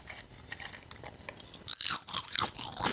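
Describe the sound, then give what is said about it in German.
Potato chips crunched straight from a bowl without using hands: faint rustling at first, then several loud, sharp crunching bites in quick succession. “Ich habe ja ein Schälchen vorbereitet. Ja, okay. In dem Fall mit Chips. Ich mache das mal vor. Ich habe jetzt nichts im Mund und Achtung, ohne Hände.”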